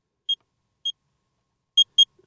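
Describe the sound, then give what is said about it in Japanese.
A Geiger counter beeping as radiation enters it: four short, high electronic pips at uneven intervals, the last two close together, alone against silence. “ピッピッて聞こえるでしょ。これがね、ガイガーカウンターに放射線が入ってきた時に入ってきたよって信号なんですね。”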